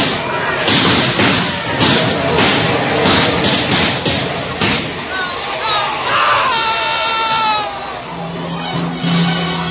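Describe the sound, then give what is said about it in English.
A volley of rifle fire bursts out in many sharp bangs crowded into the first few seconds, mixed with shouting voices, then yelling and commotion carry on. “Load up, men. Don't shoot till I tell you. Wait till they get up close. Quick, quick. Oh, Lord, let it happen quick. Now, men, fire. Now, fire.”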